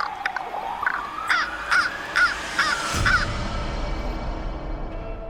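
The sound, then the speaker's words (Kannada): A crow caws harshly several times in an even, steady rhythm, each call loud and rasping. A low rumble rises beneath the last calls and continues after the cawing stops. “ಸ್ವಲ್ಪ ಮಟ್ಟಿಗೆ ಪ್ರತೀಕಾರ ಸಾಧಿಸಿಕೊಂಡ ಕಾಗೆ ಅಲ್ಲಿಂದ ಹಾರಿಹೋಯಿತು”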